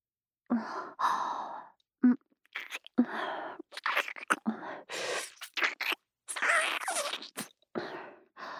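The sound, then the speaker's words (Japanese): Wet mouth sucking sounds on a nipple: an irregular series of smacks and slurps mixed with breathy sighs, moderately loud with short pauses between them. “それでは、そのご期待に応えましょう。乳首を吸って差し上げます。”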